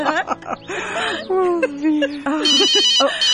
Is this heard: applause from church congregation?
no